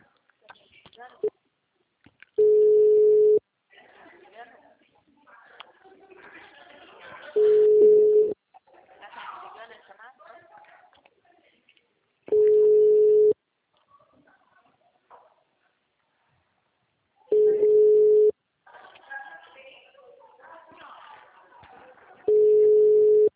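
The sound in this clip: A repeating telephone tone as a call is placed: five steady, mid-pitched bursts about a second long each, evenly spaced, with people talking in the gaps between them.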